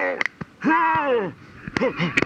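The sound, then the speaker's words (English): A voice imitates labored wheezing: a few short, strained gasps, then a longer whining wheeze that sags in pitch, followed by more choppy, squeaky breaths. “All my wheezing must have alerted the monarchy guards.”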